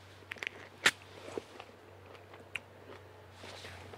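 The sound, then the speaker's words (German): A bite into a fresh garden tomato at the Siebenhof farm in Marburg-Ginseldorf: a few faint, soft crunchy snaps, one sharper than the rest, over a steady low hum. “zum Abschluss muss ich eine Tomate unbedingt probieren hier. Die sieht so gut aus.”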